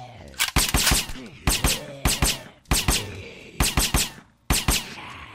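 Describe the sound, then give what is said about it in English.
Rapid gunfire in a video game as players shoot at a zombie: many sharp, loud shots fired in repeated quick bursts with brief gaps between them. “Hey, man, I was shooting the zombie.”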